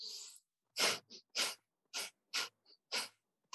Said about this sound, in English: that same panting breath, but through the nose, that we call breath of fire.